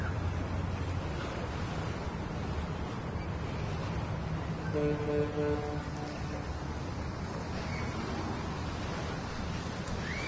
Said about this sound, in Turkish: Sahil kenarında bir bankta yan yana oturuyorlar. Denize bakıyorlar.